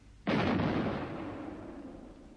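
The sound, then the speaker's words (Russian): A single loud report from a six-inch artillery battery firing a salute, a sharp blast followed by a long, slowly fading rumble. “Это салют. Совершенно верно. 6-дюймовая батарея салютует.”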